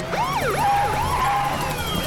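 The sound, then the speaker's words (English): Overlapping wailing sirens from police and FBI vehicles pulling up to a building, several tones sweeping up and down at once. Loud and continuous, with no talk. “Police and FBI vehicles pull up to the sniper's building.”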